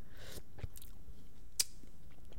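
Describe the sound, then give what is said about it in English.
Soft chewing and small mouth clicks as someone tastes clam chowder made with quahogs and bacon. A few faint crisp sounds rise over a quiet background. “All right, so you know I want to taste what we're working with.”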